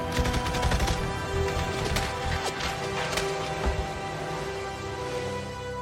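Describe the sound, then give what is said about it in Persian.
.50 caliber machine gun fire roars continuously in dense, rapid bursts, loud throughout, over a steady tonal hum, with no voices. “برو سراغ کالیبر 50. وقتی پیچیدم راست تیر بارونشون کن.”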